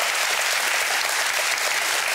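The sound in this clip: Hearty applause from the audience of a German entertainment show, loud dense clapping that fills the short stretch at an even level from start to finish.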